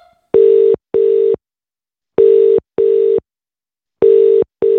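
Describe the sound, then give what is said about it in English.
Telephone call tone on the line after a number is dialed: a steady mid-pitched tone pulsing in pairs of short bursts separated by longer silences, three pairs in all, with the last pair cut short at the end. “Here we go. I'm dialing the first number.”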